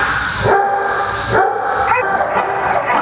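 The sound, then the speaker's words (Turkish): Dogs barking at a pet hotel in Chengdu, China, where dozens are boarded. A few sharp barks stand out over a dense, constant wash of noise. “Çin'de Shangdu'daki bir evcil hayvan otelinde onlarca köpek serin odalarda konaklıyor.”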